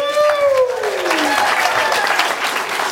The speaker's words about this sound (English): let's give a big round of applause to Classic Provisions for tonight's